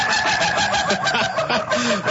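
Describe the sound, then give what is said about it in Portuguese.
Rooster crowing, drawn-out fowl calls against a dense, loud, noisy background, with a few short rising and falling tones near the end. “Cadê o galo aí? Cadê o galo sorridente aí?”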